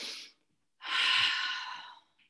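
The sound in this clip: A deep breath drawn in during seated meditation with clasped hands: a short airy breath, a pause, then one long, steady inhale that fades gently, with no voices.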